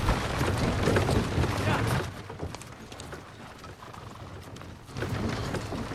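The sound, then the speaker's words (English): Horse-drawn carriage carrying a body pulls away, with clip-clop hoof thuds over a broad rumble of wheels. It is loud for the first two seconds, then quieter with scattered sharp knocks, and swells again near the end. “Eisenheim looks desolate as the carriage containing the body pulls away.”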